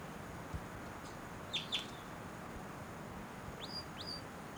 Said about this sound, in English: Wild bird, that might be the male in the back, but those flight calls were the female.